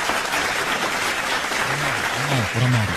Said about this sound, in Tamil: அவருக்கு கைத்தட்டலனா எப்படி,